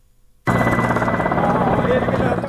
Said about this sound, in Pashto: د بهرنیو ځواکونو د جنګي هلیکوپټرو تر څنګ ځینې نورې الوتکې هم په هوا کې ګرځي چې موږ یې نه وینو.